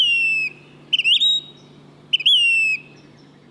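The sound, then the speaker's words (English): A phoebe gives clear whistled calls: three drawn-out notes that fall slightly, each opened by a brief rising flick. They are loud and sound alone over a faint, steady low hum. “This month also brings phoebes. Eastern phoebes east of the Rockies. And Say's phoebes in the west.”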